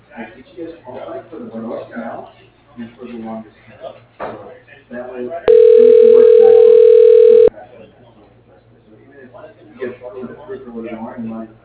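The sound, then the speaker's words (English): Steady telephone line tone as a call is forwarded to voicemail, a single flat, loud, unbroken note held for about two seconds between stretches of people talking. “Can I forward you over to his voicemail?”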